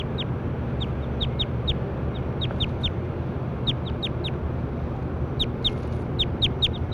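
Bird calls recur throughout as short, sharp, high chirps with a quick downward sweep, many of them in pairs and clusters over a steady low rumbling background, with no voices.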